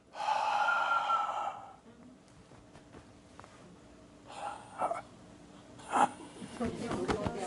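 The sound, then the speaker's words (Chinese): A person exhales in a breathing demonstration about abdominal support, a soft, airy rush of breath after a brief voiced sound, followed by a few short, faint breathy puffs. “来，我们吸气的时候是不是，对不对？那我吐气，理论上吐完了嘛”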